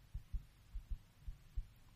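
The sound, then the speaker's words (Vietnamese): Heartbeat sound effect: a faint, steady series of low, muffled double thumps, repeating in a regular rhythm over a soft hum. “Tim tôi đập thật mạnh.”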